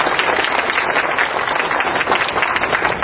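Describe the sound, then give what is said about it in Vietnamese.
Audience applause at a Vietnamese Buddhist Dharma talk attended by lay Buddhists from Northern California: a dense, even wash of many hands clapping, steady and moderately loud for the whole stretch without talk. “xin cho một tràng pháo tay.”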